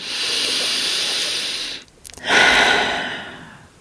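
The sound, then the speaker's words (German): A deep breath in and out: two long, airy rushes of breath with a brief pause between them. The second starts strongly and fades slowly, with no talking. “Atme tief durch.”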